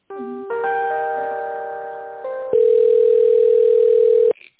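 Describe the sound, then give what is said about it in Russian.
A telephone line tone plays while a call is being connected to another department: steady electronic tones hold, shift to a new pitch a few times, then cut off abruptly. “Сейчас минутку с тендерным отделом соединю вас. Спасибо. Так, соединяю.”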